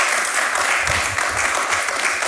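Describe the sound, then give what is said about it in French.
A studio audience applauds a guest on a football match preview show, giving dense, loud clapping with no pause, steady throughout. “Merci Nordine, qu'on peut évidemment bien applaudir.”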